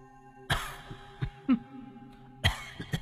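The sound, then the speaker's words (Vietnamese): A woman coughs behind a curtain, a few sharp coughs spaced apart with smaller throat sounds between them, over a faint steady hum. “vóc dáng và tiếng ho đó thì Kha làm sao có thể quên”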